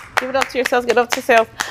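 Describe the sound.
Hosts clap for themselves at the close of a season. A handful of sharp claps fall among lively voices that talk and exclaim over them.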